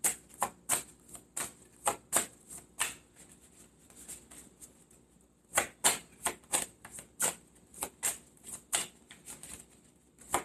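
Playing cards shuffled and drawn for an astrological card reading: many quick, crisp snaps and riffles in two busy runs, separated by a quieter pause, faint overall.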